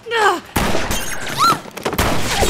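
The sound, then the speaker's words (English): Sniper rifle gunfire: two sharp, loud bursts of noise, each followed by a sustained crash, with brief whistling tones around them. “Goodness, that's from a sniper! Hit the floor!”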